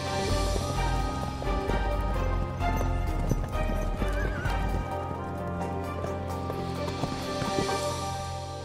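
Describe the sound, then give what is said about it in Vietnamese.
Galloping hooves of a troop of mounted soldiers riding away from a capital city at full speed: a dense, continuous clatter of many hoofbeats, loud and unbroken, with horses neighing over the drumming. “Ngay lập tức, một tớp lính cưỡi ngựa rời khỏi kinh thành, nhằm hướng Khâu Phạ đi một mạch không ngừng nghỉ.”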